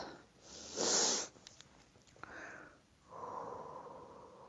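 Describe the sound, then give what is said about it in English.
A nice deep breath heard as two separate airy breath sounds, the first a short, louder hissing rush and the second a longer, softer and lower breath a couple of seconds later, with no talk. “switch gears right now as I take a nice deep breath so I can connect to Jacob.”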